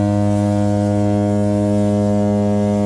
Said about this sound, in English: He's got a lovely light touch with the honks. He knows when to honk and when not to honk.